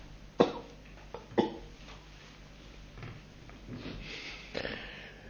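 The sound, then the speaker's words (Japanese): Two sharp, brief coughs about a second apart from someone clearing a tickle in the throat, fairly soft, followed by faint breathy throat noises and no speech. “ちょっと失礼、喉に引っかかっちゃった。”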